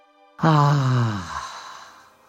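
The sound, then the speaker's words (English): A slow breath out through the mouth during a guided breathing exercise, heard as one long, fairly loud voiced sigh whose pitch falls steadily before it fades into a soft breathy tail, with no talking. “And then we're going to take a beautiful inhalation through the nostrils, exhaling through the mouth.”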